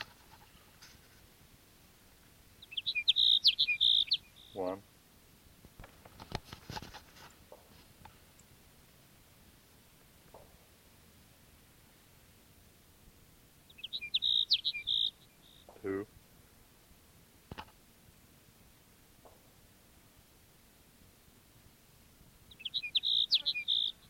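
Sparrow song comes as three short, high, buzzy trills spaced roughly ten seconds apart, each brief and fairly loud against a quiet background with faint scattered clicks and ticks between them.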